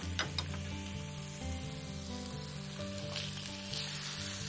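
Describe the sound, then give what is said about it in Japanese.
Potatoes and onions sizzle in hot oil in a frying pan, a faint, continuous crackling hiss with tiny pops scattered through it. “でフライパンの油が温まりましたら、でここにじゃがいもと玉ねぎを入れて炒めます。”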